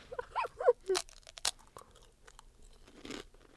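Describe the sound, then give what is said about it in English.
Crunching into a Kettle Brand Cheddar Beer potato chip: a cluster of sharp, crisp crunches in the first second and a half, then quieter chewing and one last crunchy burst, fairly faint and with no voices. “This is a Kettle Brand chip called Cheddar Beer.”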